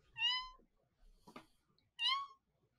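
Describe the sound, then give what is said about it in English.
Tiny kittens meowing: two thin, high-pitched mews separated by a pause of more than a second, each short and clear. “Anna's going to stop and realize that they can hear something. And it's teeny tiny little meow,”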